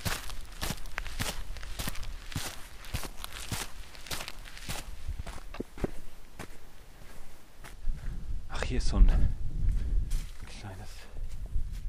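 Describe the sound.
Footsteps tread a forest path at night in a steady, even rhythm, many soft crunching steps at moderate volume, with a brief burst of rustling and low rumble toward the end.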